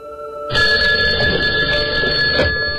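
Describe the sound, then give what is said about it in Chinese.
An embassy telephone rings with a loud, continuous electric bell trill that starts abruptly and runs steadily for about two and a half seconds, alone, with no voices. “几个小时过去了，使馆的电话终于响了起来。”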